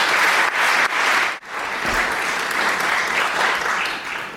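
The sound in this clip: Audience applause welcomes a speaker at an evening lecture: dense, steady clapping from many hands at a strong level, with a brief dip partway through before it swells again and carries on.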